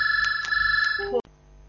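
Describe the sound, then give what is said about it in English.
A faulty telephone gives off a steady electronic tone with regular pulsing beeps, then a brief jumble of shifting tones before the sound cuts off abruptly, leaving a faint hum. “Oh, the phone's gone wrong.”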